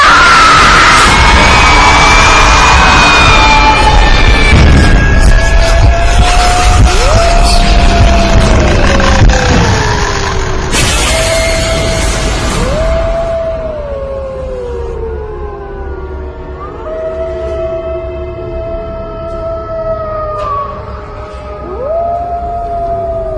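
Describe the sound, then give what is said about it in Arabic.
Screaming mixed with dogs and wolves howling, echoing across a village. A loud, noisy burst at the start gives way to long, wavering howls whose pitch glides up and down and overlaps throughout. “صوت صراخ مع صوت كلاب وديابة، صوت الصريخ ده كان عمال عامل صدى”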